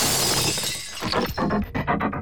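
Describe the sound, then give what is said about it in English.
Glass shattering as a creature slams into a glass shop door: a loud, sustained crash of breaking glass, followed by a scatter of smaller clattering fragments. “flinching as the sticky beige creature flung itself at the glass. The blow snapped the jingling bell off the door and shredded the health and safety sticker.”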